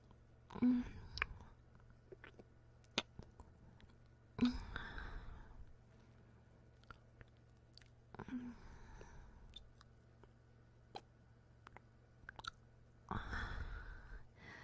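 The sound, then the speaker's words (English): A finger is licked clean of juices with faint wet sucking and smacking, a few soft bursts with small clicks between them, all very quiet. “I wanna lick the juices of my finger.”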